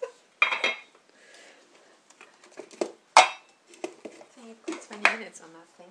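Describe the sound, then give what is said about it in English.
Dishes and cutlery clink while tea is being made, with a few sharp, bright clinks standing out among quieter rattling and handling noises. “Tea making sounds.”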